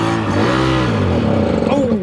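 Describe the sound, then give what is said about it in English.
A homemade shoe-shaped car over 30 years old drives around a museum car park in Hyderabad, its engine giving a loud, steady rumbling drone whose pitch wavers and shifts throughout. “drive the shoe around the car park for about 30 seconds before the engine gives out, which isn't bad for a homemade vehicle that's over 30 years old.”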